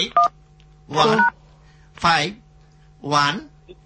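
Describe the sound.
Telephone keypad dialing tones: a few short, steady beeps at the very start, followed by three louder voice-like bursts spaced about a second apart.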